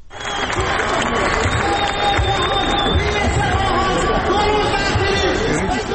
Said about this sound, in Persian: این صدای شهروندان اصفهانی است که بر بستر تفتیده و خشک زاینده رود خیمه زدند.